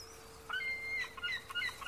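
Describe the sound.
Seagulls and crows calling over the sea: a series of short, high-pitched chirps and whistling calls, repeated irregularly and fairly loud over a steady low hum.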